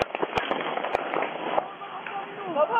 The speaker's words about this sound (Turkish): Bazıları yumruk yumruğa kavga ederken bazıları da silahını çekti, peş peşe tetiğe bastı.